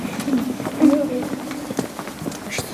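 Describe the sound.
A group's footsteps shuffle along as people walk to the first station of the Stations of the Cross. The soft, irregular steps run under steady talking.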